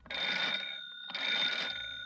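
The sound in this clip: A telephone rings in two steady bursts of bright, high, buzzing bell tone separated by a short gap, with nothing else heard.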